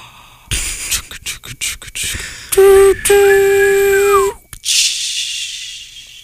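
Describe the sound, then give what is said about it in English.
A train arriving: a run of quick chugging beats leads into a loud, sustained whistle chord, followed by a long hiss of steam. “I hear something. I think that's it. Liam, I think that's it. I think that's the train to Sleepy Town.”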